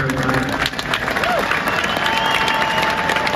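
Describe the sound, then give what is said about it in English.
Polite applause from an audience, a steady patter of clapping held at an even, moderate level throughout, without cheers or boos standing out. “Some polite applause, I guess. No smattering of boos or anything like that.”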